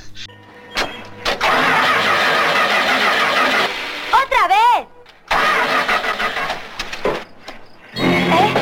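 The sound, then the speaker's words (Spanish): A car engine is cranked and roars into life after a young boy tries to repair it with a screwdriver. Rough bursts of engine noise stop and restart a few times, with brief high squeals between them and voices around. “Se pone a arreglar el coche. Venga, Tommy, mira a ver qué le pasa. Dame un destornillador, dice. Arranca ahora, no, dale, arranca ahora.”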